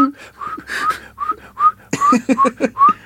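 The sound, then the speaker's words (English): A person's voice imitates the nose whistle of someone running on a treadmill. It makes many short, high whistled squeaks in a rhythmic run, with breathy puffs between them, and the squeaks come faster toward the end. “Nose whistle guy on a treadmill. That's like a funny choo-choo train.”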